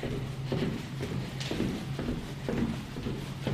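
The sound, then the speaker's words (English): Footsteps walking through the fireproof corridors linking buildings of an Antarctic research station, a steady run of muted steps about twice a second over low background noise. “Lots of walking.”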